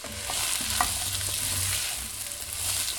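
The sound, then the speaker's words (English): Chopped celery, onions and carrots sizzle in melted butter in a heavy pot such as a Dutch oven. A steady, bright frying hiss carries a few soft stirring knocks underneath. “And to our melted butter, we will add the chopped celery, onions, and carrots.”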